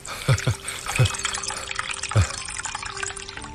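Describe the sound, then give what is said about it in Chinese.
Tea is poured into cups as a fairly faint liquid trickle, with a few louder splashy drips standing out. “二叔，老卢，喝茶。”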